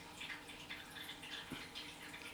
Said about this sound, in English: You might be able to hear my pet's water dish running in the background, but it's really just a tranquil fountain of life.